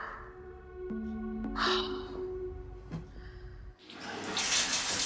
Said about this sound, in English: Water cascades from a shower head